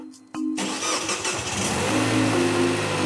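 Car engine starts after an oil pipe repair, with a short starter crank before it catches. It then settles into a loud, steady, mid-pitched running hum.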